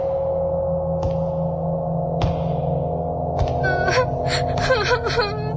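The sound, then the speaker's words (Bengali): Someone crying in the room next door, with gasping sobs and soft whimpering wails over a steady low hum. “কে কে কাঁদছে এখানে? কে কে কে ওখানে?”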